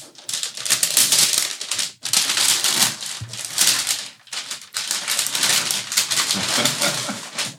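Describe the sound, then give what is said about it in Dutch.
Paper wrapping on a gift crinkles and tears as it is unwrapped, a loud, dense rustling that runs nearly continuously with a few brief pauses and no talk. “Ik mag gaan uitpakken. Je moet het even uitpakken.”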